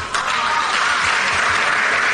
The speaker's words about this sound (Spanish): No era para que aplaudieran, pero bueno... Bueno, ahí hay un coro de aplaudidores.